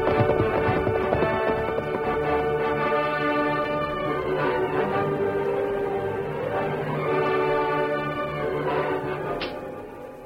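Horses gallop off as their riders leave, a steady rapid clatter of hoofbeats that runs throughout, fairly loud and fading slightly at the end.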